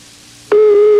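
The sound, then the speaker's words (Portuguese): A telephone line tone sounds while a call is being placed: after a brief faint hiss, a loud, steady mid-pitched tone starts suddenly halfway through and holds unchanged to the end. “Peraí, vamos ligar agora. Ligar de novo, enquanto ele tá enfesado. É o problema. Olha, ele tá chamando.”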